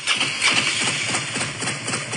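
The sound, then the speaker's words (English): A Harley motorcycle engine rumbles loudly and continuously, with a steady low throbbing pulse running through the whole short stretch and no voices over it. “It's a Harley.”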